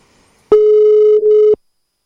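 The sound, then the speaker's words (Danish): A single telephone ring tone: one steady, mid-pitched electronic tone lasting about a second, with a brief dip near its end, heard alone against silence. “Så vi lige prøver at ringe til hende igen.”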